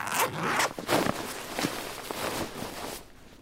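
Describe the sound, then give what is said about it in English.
A zipper on a book bag is pulled open in a series of quick, rasping strokes of varying length, then stops and leaves near quiet at the end. “Let's climb out of the book bag and see if it's any better outside.”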